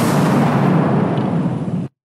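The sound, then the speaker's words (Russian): An explosion in a hall with large panoramic windows heard as a loud, dense roar, a sustained rumble of noise that holds steady for nearly two seconds and then cuts off abruptly into silence. “Потом раздался взрыв.”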